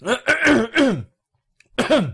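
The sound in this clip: Throat clearing and coughing from someone with something stuck in the throat: a few harsh, voiced rasping bursts in a row, a short silence, then another rough bout, all fairly loud.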